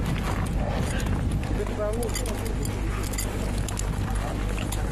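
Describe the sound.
Horses trudging through deep snow on a mountain trail, their hooves making muffled, irregular thuds beneath continuous talk from people nearby.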